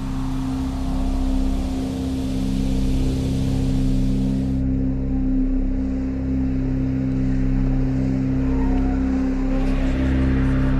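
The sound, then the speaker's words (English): Aircraft engines spooling up as the jet is pushed back from the gate, a loud, steady drone with a low, constant hum running unbroken throughout. “The engines are started and the aircraft push back.”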